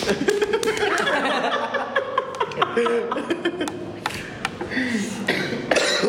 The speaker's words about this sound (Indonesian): Batuk mulu.